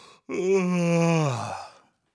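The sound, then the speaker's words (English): A voice imitates a loud yawn with a single drawn-out, groaning exhale of about a second and a half that sags slightly in pitch before fading out. “I think it was just a loud yawns. He would just be like,”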